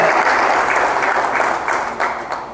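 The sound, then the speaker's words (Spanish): Applause fills a legislative council session of the Carabobo State Legislative Council in Venezuela, a loud, dense wash of clapping that holds steady and then thins slightly toward the end. “Bienvenido, un aplauso para nuestro legislador José Manuel”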